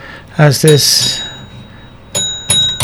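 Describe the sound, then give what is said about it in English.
A bell rung to begin a meditation talk rings out after brief speech with a clear, high, sustained tone that slowly fades and is struck again near the end. “So this can be considered an exercise, so I will ring the bell”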